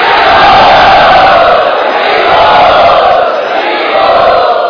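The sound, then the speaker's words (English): Loud crowd chanting in unison to welcome a speaker at an evening gathering: a dense, sustained mass of voices that holds steady throughout, rising and easing slightly in volume. “Let us welcome him by loudly chanting.”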